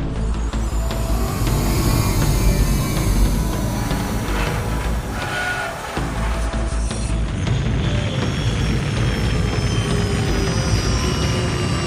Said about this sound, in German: Wir sind wieder zu Hause. Wir landen jetzt.